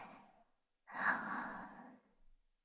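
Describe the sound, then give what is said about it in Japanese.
A deep breath is drawn in during a guided breathing exercise, heard as a soft, airy rush lasting about a second, quiet and unaccompanied, after a brief fainter breath. “じゃあ、目を閉じて、深呼吸しよっか。はい。吸って、”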